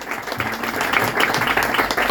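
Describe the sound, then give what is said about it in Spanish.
Applause from a crowd at a tribute during the Gijón film festival: a dense, steady patter of many hands clapping. It is fairly loud and even for about two seconds, with no talk over it. “Así que un aplauso y un brindis muy enorme”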